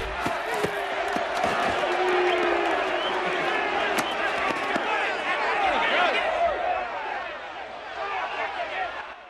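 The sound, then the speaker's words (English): A crowd shouting as they watch a bare-knuckle fight: a loud, dense mass of overlapping voices and yells, broken by a few sharp knocks and thumps, easing slightly toward the end. “Orville releases Clyde's grip and joins the crowd who are watching Philo and the big guy, Joe, bare-knuckle fight.”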